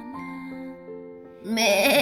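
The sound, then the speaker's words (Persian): A goat wearing a bell bleats, first with a few faint, steady, tonal notes, then with a louder, wavering, higher-pitched cry at the end. “بز زنگوله پا معمعی کرد”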